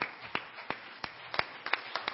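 Scattered handclaps from a church audience at a 65th anniversary service, a few sharp, separate claps at uneven intervals rather than full applause, fairly faint overall.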